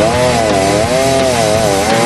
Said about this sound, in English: All right, chainsaw starts, he's cutting. Walking about halfway through the log with the chainsaw is dangerous.